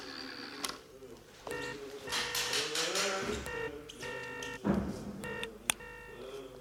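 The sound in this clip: A telephone number is dialed as a quick series of short electronic keypad tones, some held slightly longer, set against a soft mixed background.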